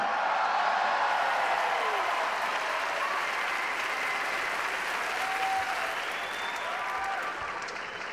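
Audience applause at a comedy show in Abu Dhabi, a loud, dense wash of many hands clapping mixed with crowd noise, sustained for about eight seconds and easing slightly toward the end.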